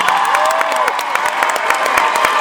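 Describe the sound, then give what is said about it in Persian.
Audience applause at a live show with musicians: dense, loud clapping with scattered cheers and a brief whistle early on, sustained at a constant level throughout. “یه دست خوشگل به افتخار خودتون بزنید تا بریم.”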